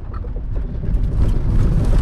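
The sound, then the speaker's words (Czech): Car driving along a rutted track near a sawmill in Černovice, giving a steady, heavy low rumble with rough, bumpy texture throughout and no talk. “S autem teď jedu po cestě u Pily v Černovicích.”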